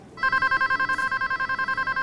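A telephone rings with a bright electronic trill, a rapid, even run of buzzing pulses that starts abruptly and repeats steadily throughout at a moderate level, with no voices.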